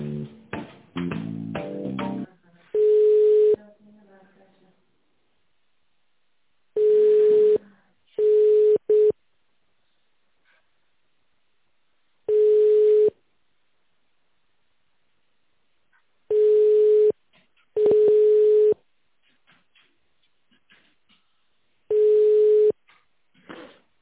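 Telephone line tones while a call is being transferred: a burst of garbled line noise, then seven steady, mid-pitched beeps spaced at irregular intervals with near silence between them.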